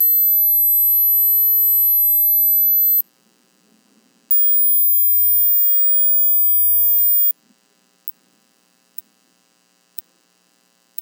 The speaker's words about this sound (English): Okay, if you can hear 8,000 hertz, you're both alive and not hearing impaired. But let's keep raising the frequency.